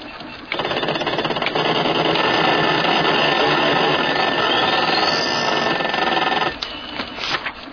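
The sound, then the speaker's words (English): Whirring, clattering drone of a computer machine working out where the golden tickets are. It runs at a steady buzzing pitch for about six seconds, then cuts off into a few scattered clicks. “We're about to witness the greatest miracle of the machine age. Based on the revolutionary Computonian law of probability, this machine will tell us the precise location of the three remaining golden”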